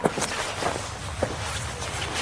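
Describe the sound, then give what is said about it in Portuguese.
Footsteps of someone walking into a tent, a few soft irregular steps over a steady hiss of background noise. “se virou e caminhou para dentro de sua tenda”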